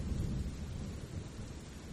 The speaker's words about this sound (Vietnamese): Ngoài trời đang mưa to gió lớn